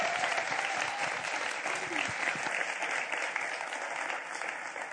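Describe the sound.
Dense, steady applause from a church audience at Grace Church welcoming a guest preacher, a continuous loud wash of many hands clapping throughout with no pauses.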